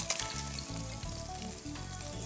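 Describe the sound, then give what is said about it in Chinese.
King oyster mushrooms stir-fry in oil in a pan, giving a loud, steady, unbroken sizzle throughout, with no voices. “然后这边的话，我们利用一些油，好把它加下来， 好 下去炒一下杏鲍菇，”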